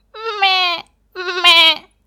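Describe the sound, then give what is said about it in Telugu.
A human voice imitates a young goat bleating: two wavering, nasal bleats, each under a second long, separated by a short pause. Both are fairly loud and heard alone. “మేకపిల్ల కనపడింది”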